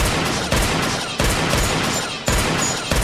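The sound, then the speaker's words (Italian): Gunfire from a .357 Magnum, several loud, sharp blasts in close succession, each leaving a dense, ringing wash of sound before the next shot. “I vetri dell'auto in frantumi, poi il suono cupo di 6 colpi di Magnum calibro 357”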